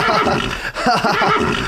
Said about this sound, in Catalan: ha canviat el motor per un cavall